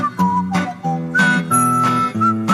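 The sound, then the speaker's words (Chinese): A whistled melody plays as part of a song: a bright run of separate notes with short breaks between them, riding over steady low instrumental backing. “这早上上班路上吹口哨这事儿不是我啊，这歌里面它就自己带着的啊。”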